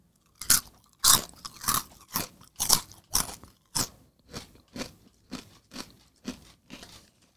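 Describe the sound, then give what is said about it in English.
Crunchy Cheeto chips are bitten and chewed during a blindfolded taste test, with many sharp, crackling crunches at a steady rhythm that grow somewhat fainter toward the end, with no talking. “I know I've said Cheetos a lot, but that one actually sounds like a Cheeto. Ding, ding, ding, ding. It was a Cheeto? It's a Cheeto.”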